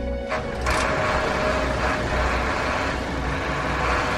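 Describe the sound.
A car engine runs with a dense, steady rumbling roar that holds loud and unbroken throughout.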